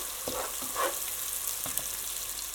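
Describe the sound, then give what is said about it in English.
Onions fry in a pan on full heat, giving a steady, faint sizzling hiss. A few soft scrapes of stirring break into it, and there is no talk. “I want to let this take the heat, get that wonderful fried onion smell come up out of the pan”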